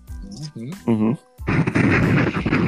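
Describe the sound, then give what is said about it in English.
A pipe bomb explosion bursts out after a short stretch of speech, starting suddenly and roaring on as a loud, sustained, rumbling blast. “Oh, that's a horrible bomb. Was that a bomb? Yo. That was a bomb, yo. That was horrible. That was horrible. Yo. That was a pipe bomb.”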